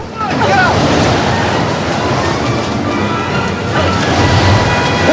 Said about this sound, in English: The devastating wind sends guards head over heels down the road.